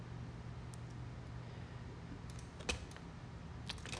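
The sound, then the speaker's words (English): A single sharp computer mouse click on the Analyze Forward button in motion-tracking software, standing out once over a steady low hum, with a few fainter clicks around it. “And then we'll click Analyze Forward.”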